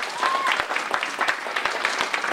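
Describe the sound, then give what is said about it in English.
An audience applauds for people on a stage, with dense, steady hand clapping filling the moment. The sound is loud and continuous, and a brief voice cuts through near the start. “round of applause for everybody on the stage here.”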